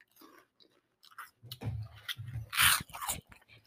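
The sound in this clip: Someone chews barbecue-flavored cheese puffs, making irregular crisp crunches and wet mouth sounds in short bursts, with one louder burst partway through.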